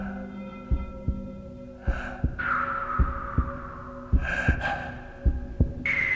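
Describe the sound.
An old man's heartbeat sounds as five slow double thumps in a steady rhythm, set against a sustained low hum and faint breathy noises.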